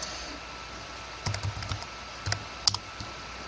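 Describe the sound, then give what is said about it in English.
Typing on a computer keyboard: a few short bursts of quick, light key clicks separated by pauses, fairly faint over a low background hiss, with no talk. “So now he'll type, how are you?”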